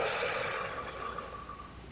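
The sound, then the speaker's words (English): A deep breath during a one-breath meditation, a soft airy rush of air that starts strongest and gradually fades over about two seconds. “Just sort of nice deep breath in. And a nice deep breath all the way out.”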